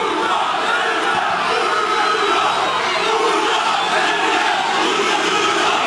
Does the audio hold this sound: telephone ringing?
no